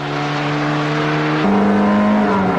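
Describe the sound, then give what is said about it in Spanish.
A SEAT 124D especial, the most powerful version, accelerating hard from 0 to 100 km/h, its engine a loud, steady droning hum with an abrupt change of tone about halfway through. “el 124D especial, el más potente. Prueba de aceleración de 0 a 100.”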